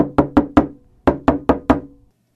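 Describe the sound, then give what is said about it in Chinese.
Urgent knocking on a door in the morning: three quick, hard raps, a short pause, then four more at the same brisk pace, each knock sharp and resonant. “第二天早上，又有人在急急地敲着门。”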